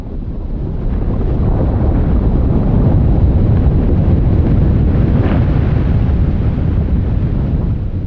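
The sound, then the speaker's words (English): A huge glacier the size of Manhattan breaks apart in Greenland, heard as a deep, loud, continuous roaring rumble that stays steady from start to finish with no separate sharp cracks. “That's the sound of a glacier the size of Manhattan cracking apart in Greenland.”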